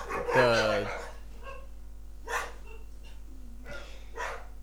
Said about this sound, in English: sorry about my dogs.